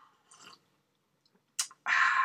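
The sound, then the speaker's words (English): Tea is sipped in a few soft, brief mouth sounds, then a louder sustained slurping hiss closes the moment. “More tea. Sorry, this tea is so delicious. It's going to be a tea episode.”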